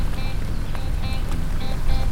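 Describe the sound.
A motorboat engine drones on a lake, a low, continuous rumble with a wash of water hiss over it, holding a fairly even loudness throughout.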